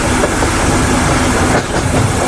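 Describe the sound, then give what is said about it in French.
A train leaving Oslo station bound for Bergen in Norway, recorded from the locomotive in 2009: a loud, steady roar of running gear with a faint rhythmic clatter of wheels on rails throughout. “Ce que vous entendez, c'est le train qui quitte la gare d'Oslo et qui va aller jusqu'à Bergen.”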